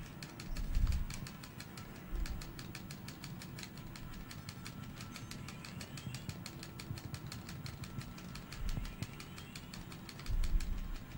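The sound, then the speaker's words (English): Pod racer engines roar in a video game race: a sustained buzzing engine drone with rapid, regular ticking, steady throughout, broken by a few louder low thumps. “When do you think pod racing is going to come to ESPN? This is pod racing. God, I love pod racing.”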